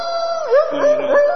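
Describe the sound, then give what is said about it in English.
A person imitates a dog, drawing out a loud howl-like yowl whose pitch wavers and bends up and down throughout, with no other voices. “You can bark all you want. Go ahead.”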